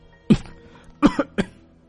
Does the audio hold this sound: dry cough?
yes

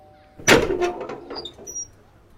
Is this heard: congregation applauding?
no

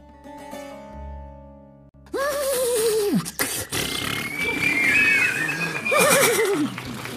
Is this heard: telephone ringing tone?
no

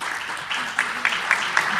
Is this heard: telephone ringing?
no

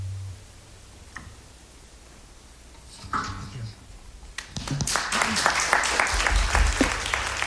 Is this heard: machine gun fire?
no

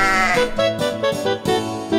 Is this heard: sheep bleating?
yes

